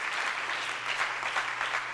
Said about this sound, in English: Why don't you clap your hands to the Lord?